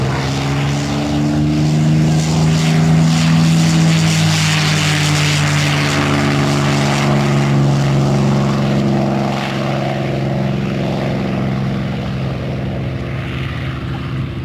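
A Mustang propeller aircraft's engine roars during takeoff down a runway: a loud, continuous, droning roar with strong, steady low harmonics that eases slightly toward the end. No voices are heard.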